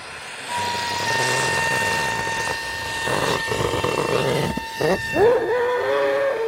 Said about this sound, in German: Ein Wetterballon wird mit Helium aus einer Gasflasche gefüllt. Er wächst und wächst, bis er nach gut 1,5 Minuten einen Durchmesser von etwa 1 Meter erreicht.